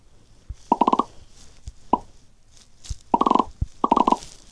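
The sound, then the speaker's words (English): Bubbles popping in a video game: tight clusters of quick, bright, tonal pops, three bursts of about five each with a lone pop between, over faint low background noise. “Popping bubbles.”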